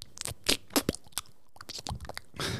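Crunchy chewing on a bite of stuffed crust pizza, with several irregular loud crunches and softer wet chewing bursts in between. No talk.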